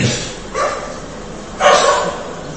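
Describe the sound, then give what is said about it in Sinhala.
Dog barking during a Buddhist sermon: two loud, rough barks with a short gap between them, over steady low background noise. “මොන කරදරයක්ද බල්ලෙක් ගුරනවා අපිට බණ අහගන්නත්.”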